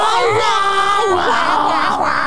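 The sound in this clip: A voice imitates a cartoon seagull screeching a romantic song: a loud, strained, warbling tone, held and bending up and down without a break.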